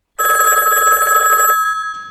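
A telephone rings once, just before an answering machine message. The ring is a loud, bright, rapidly warbling bell tone that stops abruptly and leaves a short fading tail.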